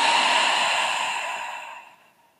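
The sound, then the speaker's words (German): One long, deep breath is drawn in through the nose and let out through the mouth, heard as a soft, airy whoosh. It holds steady at first, then tapers gradually to silence. “Nimm so einen tiefen Atemzug durch die Nase ein. Durch den Mund aus.”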